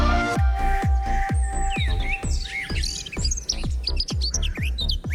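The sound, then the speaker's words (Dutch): Birds sing in mating season, bright chirps and quick whistled trills overlapping at a high pitch. A steady, regular low thumping pulse runs underneath the whole time. “Heerlijk, hè? Klinkt onschuldig. Maar wat je hier hoort, zijn gewoon geile vogels.”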